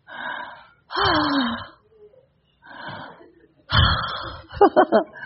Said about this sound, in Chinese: 打个哈欠吧，